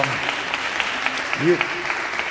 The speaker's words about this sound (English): you give yourself the applause for that and for your generosity.